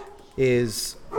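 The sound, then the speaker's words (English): A dog gives one short, loud bark, barely over a second long, amid voices talking. “that's my dog in the background playing security because she's a savage cow.”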